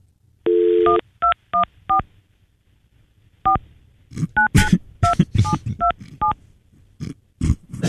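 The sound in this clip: Touch-tone keypad beeps as a telephone number is dialed: quick, even beeps in short bursts, then more tones cutting in among voices talking later on.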